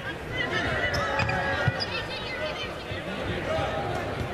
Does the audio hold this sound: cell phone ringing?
no